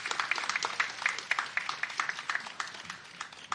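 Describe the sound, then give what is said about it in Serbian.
Audience applause at a stage event where a jury's decision is about to be announced: dense, steady clapping, fairly faint, holding at an even level throughout with no voices over it. “Molim vas da jednim još snažnijim aplauzom pozdravite Miloša Velojića i Saru Milenković”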